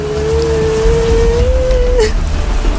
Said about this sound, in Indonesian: Ngapain jalan kaki hujan-hujanan?